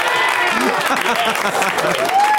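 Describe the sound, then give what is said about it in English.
Audience applause and cheering break out together, a dense, continuous wash of clapping with whoops and shouted voices running through the whole stretch. “And the crowd goes fucking crazy.”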